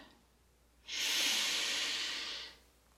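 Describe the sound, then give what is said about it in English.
One long, slow inhale through the nose during a breathing exercise, a soft, steady airy hiss lasting about a second and a half before fading. “And through the nose, taking a long inhale in.”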